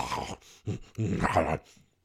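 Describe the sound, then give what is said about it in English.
A human voice imitates a pug dog's snorting in a few rough, nasal, growly snuffling bursts separated by brief gaps. The longest burst comes in the middle, and a faint trailing breath follows at the end. “Dennis Rodman sounds like a pug. I don't know if you've ever noticed that. He sounds like a pug dog.”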